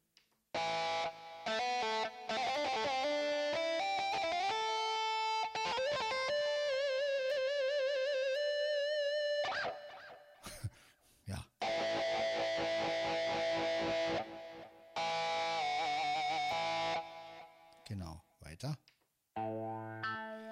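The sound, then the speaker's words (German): An electric guitar played through modulation and feedback effects produces sustained, warbling tones and sliding notes that cut off abruptly, then resume before breaking into short stuttering bursts. “Ja, Modulation hat man sogar so, ein, so eine Rückkopplung. Ist richtig klasse. Also diese Gitarre liebe ich.”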